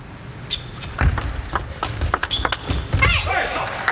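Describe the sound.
A table tennis ball bouncing during serves in a competitive match, heard as a series of sharp, light clicks and taps in an uneven rhythm, with a busy background around them.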